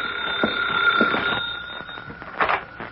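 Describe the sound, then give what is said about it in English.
An office telephone rings, its steady, high, bell-like trill sustained throughout, with a few soft bumps and rustles mixed in. “That's the phone ringing in your office”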